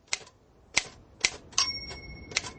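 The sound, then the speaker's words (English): Key strikes on an old, balky typewriter, recently cleaned and fitted with a new ribbon: a few slow, sharp clacks spaced apart, one followed by a lingering thin metallic ring, with no talk. “For heaven's sake, Neil, this bloody machine is unworkable. Be quicker to write the addresses by hand. It's better since you cleaned it. And the new ribbon looks fine.”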